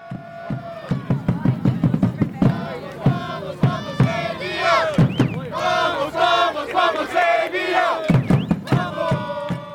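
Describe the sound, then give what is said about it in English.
Soccer supporters of Asheville City Soccer Club, the South Slope Blues, shout and chant at a match: loud, ragged bursts of many voices rising and falling in waves, with strong sustained yells through the middle. “When you go to an Asheville City Soccer Club game, you're not just watching soccer, you're welcomed into what players and fans call the South Slope Blues.”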